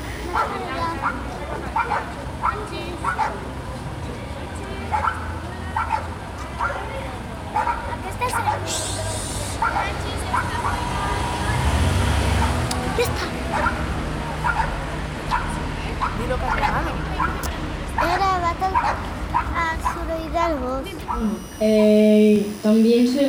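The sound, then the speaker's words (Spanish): Many dogs bark around a neighbourhood, with repeated yaps and bow-wows scattered over a steady background murmur. People talk briefly near the end. “Creo que en el barrio es y también se escuchan muchos perros.”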